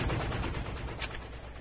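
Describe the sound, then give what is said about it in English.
Rapid bursts from a grenade launcher bombarding a base in a multiplayer shooter video game: many quick, loud, crackling shots in a dense, rhythmic stream, with no voices. “with grenades from a grenade launcher”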